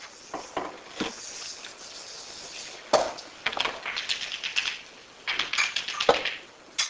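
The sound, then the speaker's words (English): Scratchy strokes of someone drawing a spacetime diagram on a board. Short, irregular bursts of scraping come in a few clusters, moderately loud against a faint background. “So the spacetime I'm going to draw is the following. So here's the eternal black hole.”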